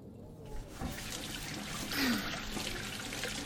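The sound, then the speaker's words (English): Running water from a tap splashes over hands being washed, a steady soft hiss and trickle that swells slightly midway and keeps on to the end. “All right, let me wash my hands.”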